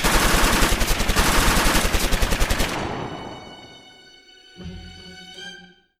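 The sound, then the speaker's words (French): Loud automatic gunfire: a rapid burst of many shots in fast succession that stops abruptly and then fades into a ringing tail, with a brief lower rumble near the end. “se retourne soudainement et tire.”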